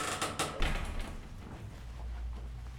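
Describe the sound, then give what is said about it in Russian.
Door to a stairwell landing being opened. A few faint mechanical clicks from the latch are followed by a soft, low rumble as it swings, all quiet. “Он открывает дверь на лестничную площадку, подходит к двери одной из квартир, достает из кармана отмычки.”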